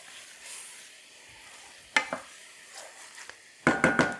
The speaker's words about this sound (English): Give it a good scrape. I'm going to let that Marsala wine cook for just a moment. I want it to cook down just a little bit.